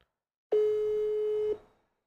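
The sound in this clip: A telephone call tone on an outgoing call placed from a mobile phone: one steady, mid-pitched tone lasting about a second, starting abruptly and cutting off, heard alone with silence around it.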